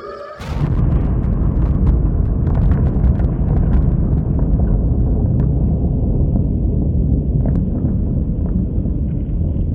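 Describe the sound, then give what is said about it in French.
An atomic bomb explosion, the first Soviet atomic test of 1949 in Kazakhstan, bursts in suddenly and becomes a deep, loud, continuous roaring rumble that holds steady for about nine seconds. “Le 29 août 1949, l'URSS a fait exploser sa première bombe atomique dans le Kazakhstan”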